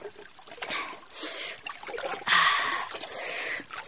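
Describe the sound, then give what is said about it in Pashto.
Water flows and splashes as a face is washed in a full channel of cold running water, with a few broad, hissing bursts of splashing and rushing over a steady trickle. “ښکته وګوره د پښو لاندې دې ډک لښتی بهیږي، اوس به پکې مخ وینځم، خولې به ورسره یوسي.”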